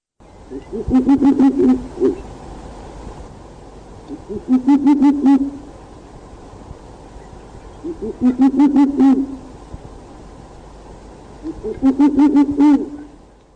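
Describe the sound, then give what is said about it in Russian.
Owls hoot in four separate bouts of quavering, tremulous calls, with steady pauses between each loud burst. “Совы.”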